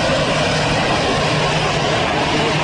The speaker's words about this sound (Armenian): Թուրքիայի նախագահ Աբդուլա Գյուլի ինքնաթիռը այսօր Զվարթնոց օդակայան ժամանեց 4:40 րոպեին։